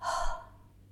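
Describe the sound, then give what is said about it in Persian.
A deliberate exhalation through an open mouth: one soft, breathy rush of air, strongest at the start and fading quickly over under a second. “همینطوری که شنیدید، من بازدمم رو جوری انجام دادم که انگار خیالم رو راحت کنم.”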